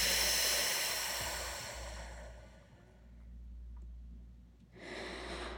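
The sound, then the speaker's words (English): Slow exhale through the mouth after holding a deep breath: a steady, airy hiss that gradually fades over a couple of seconds, then a quieter stretch before another short burst of breath near the end. “Get as much in as you can so that your belly kind of fills up and hold it. And then slowly exhale through your mouth.”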